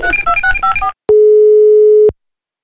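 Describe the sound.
Telephone tones sound as a call is placed: a quick run of short beeping notes, then one long, steady mid-pitched tone lasting about a second, followed by silence.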